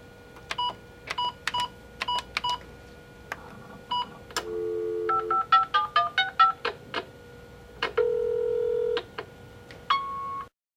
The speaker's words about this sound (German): Sie hören eine Ansage auf dem Anrufbeantworter.